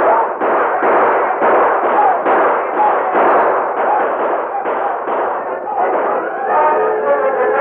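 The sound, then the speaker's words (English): Gunshot blasts in a Western shootout with mounted outlaws, many dull, booming shots firing in rapid succession throughout, loud and slightly muffled. “give him the first blast, boys. Let him have it.”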